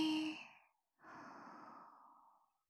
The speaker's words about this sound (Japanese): 息を大きく吸って、ゆっくり吐いて、